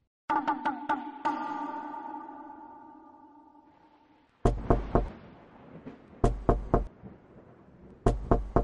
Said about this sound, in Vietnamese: Mạnh Đạt gõ cửa 3 lần, mỗi lần 3 tiếng.